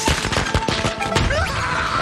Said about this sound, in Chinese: 还有， 鞭炮，我最怕的东西， 正是鞭炮，走你！